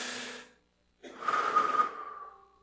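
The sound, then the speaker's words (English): A deep breath drawn in during a guided prayer. A short breathy sound and a pause come first, then a long, airy inhale of about a second and a half. “Let's take a breath. Breathe in.”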